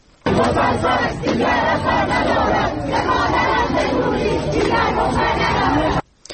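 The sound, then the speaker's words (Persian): Students chanting at a protest at Babol Noshirvani University in Iran: loud massed voices shouting together in a rhythmic, continuous roar that cuts off abruptly near the end. “هم‌اکنون صدای دانشجویان در دانشگاه نوشیروانی بابل رو با هم می‌شنویم.”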